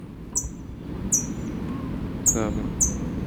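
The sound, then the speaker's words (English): Faint calls of a chick in its nest: four short, high peeps, each sliding downward in pitch, spaced irregularly over a steady low background hum. “faint response from chick in nest”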